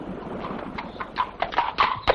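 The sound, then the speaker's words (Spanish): Horse hooves clip-clop as a rider arrives on horseback at Zamora, a few soft hoof beats over a steady background hiss that grow louder toward the end. “Poco después, Rodrigo llega a Zamora en su caballo.”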